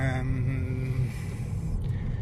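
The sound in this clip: A car driving past a concrete factory and large concrete blocks, giving a steady low engine rumble with a humming tone that fades out about halfway through.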